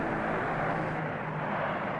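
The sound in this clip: A loud, steady roar of an airplane coming in to land at an airport, a dense unbroken wash of engine noise holding level for the whole stretch with no voices.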